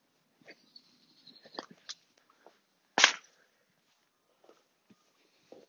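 A heavy dug-up find dropped onto a can in the corner of a field, giving one loud, sharp thud midway, with faint scattered small knocks and rustles before and after.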